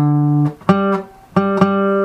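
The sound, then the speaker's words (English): An instrument plays the interval of a fourth: a lower sustained note steps up to a higher one, and the pair is then played again, each tone clear and rich in harmonics. “So from here to here is a fourth.”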